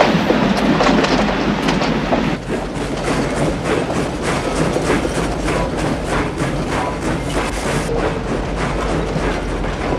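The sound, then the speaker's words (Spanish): A train of wagons carrying prisoners rumbles heavily, with a steady, loud roar and rapid clattering clicks running underneath for the whole stretch. “El tren se detiene.”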